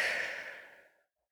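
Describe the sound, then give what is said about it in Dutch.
A deep breath blown out as one long, soft exhale that gradually fades to silence, quiet and alone with no talk. “Haal een keer diep adem in. Blaas uit.”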